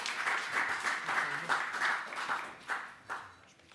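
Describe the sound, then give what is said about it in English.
Audience clapping breaks out for a departing guest, a dense patter of hands lasting a few seconds, with a few sharper, louder claps standing out toward the end as it thins. “could we maybe just give you a clap?”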